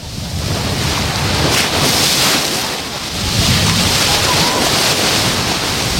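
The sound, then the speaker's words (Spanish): Sea waves splash on the beach at Salobreña as strong wind buffets the microphone. The surf roars loudly and without a break, swelling and easing in broad surges. “oriento el micrófono al mar con mucho cuidadito, porque hoy es verdad que el mar salpica. No me voy a acercar demasiado, tampoco hace falta porque el sonido es muy fuerte.”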